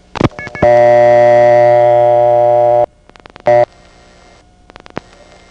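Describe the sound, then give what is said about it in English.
Clicks and pulses from old telephone switching equipment sending revertive pulse digits: a quick cluster of clicks, a loud steady buzzing tone of about two seconds, a short burst, then scattered sharp clicks over a faint hum. “This time I will leave the revertive pulse digits intact rather than slowing them down, but I'll talk in between them.”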